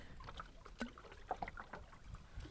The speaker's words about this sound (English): All right, so right now, Ben is recording our speed as we paddle on Agnus.